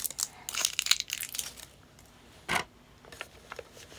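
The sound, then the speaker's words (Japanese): A sealed package is opened with bursts of crinkling plastic and a sharp rip, followed by a few softer rustles, separated by short quiet pauses. “1組目を開封して、”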